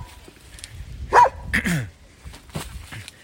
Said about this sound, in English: Excuse the dog. Doggy dog.